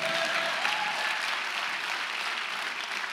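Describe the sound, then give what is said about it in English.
A church audience applauds with dense, steady clapping that holds at an even level through the whole stretch, with no break or clear swell. “Can you put your hands together and amen?”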